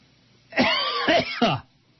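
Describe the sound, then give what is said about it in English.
Coughing and throat clearing from a bacon bit stuck in the throat: a few rough, strained bursts packed into about one second, loud and alone. “I got a bacon bit stuck in my throat.”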